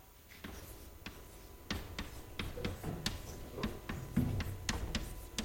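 Writing, with many sharp, irregular taps and scratches of the writing tool, fairly faint and heard alone.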